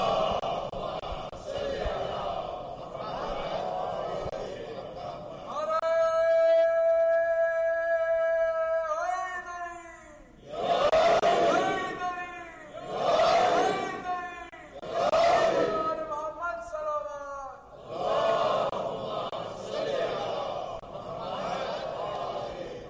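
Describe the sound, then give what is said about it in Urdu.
A crowd at a religious gathering chants a slogan in unison, in several loud rhythmic bursts of voices. A sustained tonal voice comes before the chanting. “چلیے آپ نے یہ نعرہ لگا دیا”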